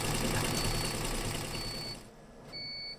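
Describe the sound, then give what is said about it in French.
A four-head embroidery machine runs in a workshop with a steady, dense mechanical whirring and rattling that drops away near the end, leaving thin high tonal whines. “Donc là, j'ai lancé la brodeuse 4 euh, têtes.”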